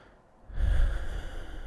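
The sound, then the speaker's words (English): One deep breath taken during a guided affirmation exercise: a soft, low rush of air that swells after a brief quiet start and then slowly eases off. “Nice deep breath.”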